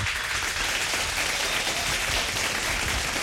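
Applause from an audience welcoming a performer onto a live-music stage at Tipsy Cow Bar forms a dense, steady wash of clapping that stays at a constant level throughout, with no voices standing out.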